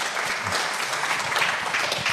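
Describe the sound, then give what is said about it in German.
Audience applause during a political discussion about pensions: dense, even clapping that holds steady throughout, with no voices over it. “Und diesen Applaus wollen wir nicht unterschlagen.”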